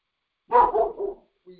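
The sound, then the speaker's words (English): An excited dog barks: one loud, drawn-out bark breaking into a few quick pulses, followed by a short, faint trailing sound. “we got a dog here. It's getting excited. He's barking in tongues, I guess.”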